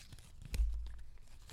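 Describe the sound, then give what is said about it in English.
A question slip drawn from a bowl gives a brief paper rustle and crinkle, with a dull low bump partway through before the soft scratchy handling trails off. “We're going to draw from the more wholesome bowl first. Who wants to draw? Me, I just went for it. I'm doing a little ASMR with it.”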